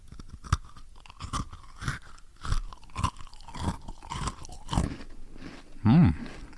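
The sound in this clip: Crunching of a chocolate cookie, bitten and chewed for ASMR. Many crisp, sharp crunches come in an irregular rhythm, fairly loud and with no talk.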